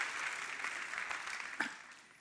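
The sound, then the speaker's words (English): Faint audience applause at a packed church gathering as people clap for one another. The clapping forms a soft, steady wash with no clear individual claps, fading slightly toward the end. “Come on, give your neighbor a round of applause for being amazing.”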